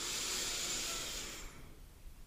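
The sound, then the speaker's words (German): A faint inhale through the nose during a breathing exercise, a steady airy hiss lasting over a second before it fades away to near quiet. “Und das machen wir jetzt mal ganz kurz zusammen. Einatmen durch die Nase.”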